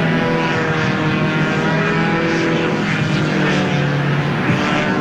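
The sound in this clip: A paramotor flying overhead during a stunt against the skyline, its small propeller engine giving a loud, continuous droning buzz with a steady tonal hum throughout, and no one talking.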